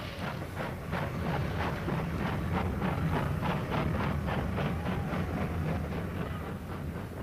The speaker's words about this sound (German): Und wirklich, mit mächtigem Fauchen und Prusten, zog die große Lokomotive wieder an.